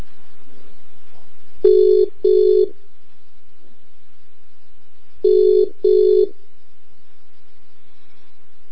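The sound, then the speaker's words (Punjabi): Ringback tone of an outgoing telephone call: two double-pulse rings, each a pair of short, even beeps, separated by a pause, with a faint steady tone continuing underneath and no voices. “Ring ਕਰ ਦਿੱਤੀ ਹੈ ਜੀ ਉਹਨਾਂ ਨੂੰ”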